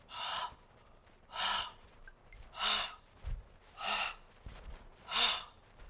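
Forceful exhalations through a rounded O-shaped mouth during a breathing exercise with fists clenched and thumbs tucked. Five broad, breathy hissing bursts come in a steady rhythm, separated by quiet pauses, with no talk.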